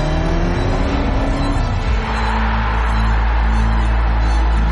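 An Audi car engine revving in a loud, continuous roar that runs the whole length, with a change in its tone partway through and no talk over it.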